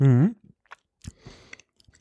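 Someone chews slightly dried salami with a very thin casing. A short hummed tone comes first, then a few sparse, moist crunching bites.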